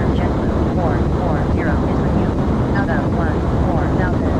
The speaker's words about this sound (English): I'm getting a lot of like engines spooling up and down with this FSC pilot.